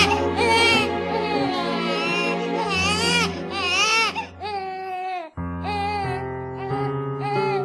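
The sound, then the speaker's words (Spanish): A hungry baby cries loudly and without pause, the wails wavering up and down in pitch and broken only by a couple of brief catches of breath. “Por favor, ¿alguien puede alimentar a mi bebé? Tiene mucha hambre.”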